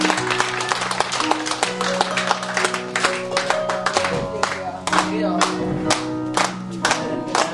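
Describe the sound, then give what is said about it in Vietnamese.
Audience applauding at a Vietnamese community gathering for a visiting priest in Denmark, many hands clapping in a dense, continuous patter, with voices mixed in throughout. “Vậy mình vỗ tay cho mình luôn.”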